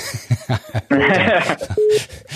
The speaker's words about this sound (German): jetzt kommt schon ein Anruf hier rein.